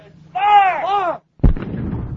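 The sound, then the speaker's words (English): A mortar round fired by U.S. forces in Afghanistan's Paktika province toward a nearby mountaintop: a man's drawn-out shout, then a brief silence and one sharp, heavy boom with a rumbling tail that fades. “U.S. forces in Afghanistan's Paktika province fire mortar rounds at a nearby mountaintop.”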